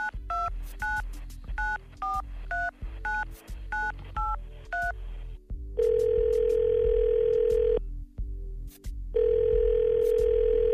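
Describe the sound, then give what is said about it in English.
Telephone dialing: a quick run of touch-tone beeps of varying pitch, then two long, steady ringing tones separated by a short pause, over a low hum. “And we're going to call that man right now, so let's dial him up.”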